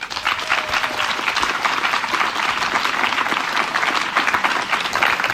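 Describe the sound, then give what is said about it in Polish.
Loud audience applause on a literature festival stage for an interpreter: a thick, continuous patter of many hands clapping, steady throughout with no voices over it. “najpierw poproszę o brawa dla tłumaczki tego spotkania, Katarzyny Janusik.”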